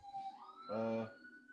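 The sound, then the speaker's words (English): An ambulance siren gives a short, loud, steady wail that rises out of the background and fades again, with people talking around it. “Is that a police officer? That's the ambulance.”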